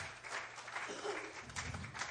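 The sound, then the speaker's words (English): Church audience clapping hands in praise during an evening sermon. Faint, steady clapping from many people runs throughout without a clear pause. “If you'll give him another hand clap of praise, I'll catch my breath and finish this sermon tonight.”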